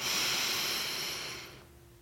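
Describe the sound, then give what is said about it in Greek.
One long, deep breath taken during a guided conscious-breathing exercise: a steady airy hiss that holds for over a second, then fades into quiet. “Πάρε τώρα μία βαθιά εισπνοή”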